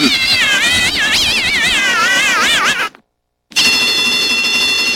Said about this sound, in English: This is an alarm sounding in a police station somewhere in the United States.